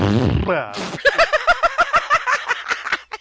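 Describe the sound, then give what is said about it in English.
A comic fart sound effect, a low buzzy blat sliding downward in pitch, followed by a quick run of rhythmic, laughter-like bursts. “That was the sound of my brain farting out of my head.”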